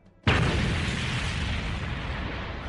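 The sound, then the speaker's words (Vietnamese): A single loud explosion bursts out suddenly after a moment of quiet, then trails into a long, broad rumble that fades only slightly over the next few seconds. “một tiếng nổ lớn đột nhiên vang lên”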